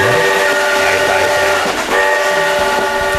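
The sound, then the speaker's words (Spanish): Train sound effect of a rolling rumble under steady, sustained whistle tones that hold a chord-like pitch, loud and continuous throughout with no pause. “¿Podemos poner un poco de tren para ambientar? Sí. Montes, pon un poco el chucu chucu.”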